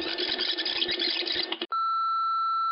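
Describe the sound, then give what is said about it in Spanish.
An answering machine beeps before recorded messages play: a dense, noisy stretch cuts off abruptly, then one steady, sustained high-pitched beep holds loud and unbroken to the end. “voy a poner el contestador donde me dejaron grabadas los mensajes”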